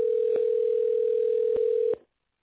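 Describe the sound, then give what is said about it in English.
A telephone dial tone hums at one steady pitch while a number is dialled, with three short clicks breaking over it before the tone cuts off into silence. “Dialing.”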